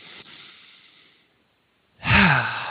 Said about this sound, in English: Now let's do this. Let's just take a deep breath together.